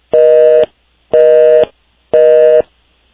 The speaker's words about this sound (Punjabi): I think ਤੁਹਾਡਾ phone ਜਿਹੜਾ ਉਹ ਡਿਸਕਨੈਕਟ ਹੋ ਗਿਆ ਤੁਹਾਡੇ ਤੋਂ ਬਾਅਦ।